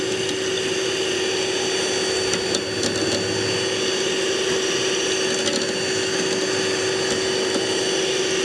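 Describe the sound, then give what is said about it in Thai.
An electric mixer runs on low speed, mixing a runny water-in-oil cream, giving a constant, even motor whir with a steady hum that holds for the whole stretch. “อันนี้เราเปิดเบอร์ผสมไม่แรงนะคะเพราะว่าเดี๋ยวมันจะกระเด็น ในขณะที่ส่วนผสมเนี่ยมันยังเหลวอยู่ยังไม่ข้นนะคะก็อย่าเปิดแรงเปิดประมาณนี้นะคะเพราะไม่งั้นมันจะกระเด็น”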